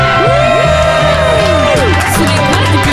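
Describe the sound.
A TV audience cheers loudly as the host makes his entrance, with continuous whooping, shouting and whistles that slide up and down in pitch over the roar.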